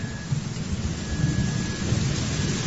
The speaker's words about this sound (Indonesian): Seiring dengan kilat petir,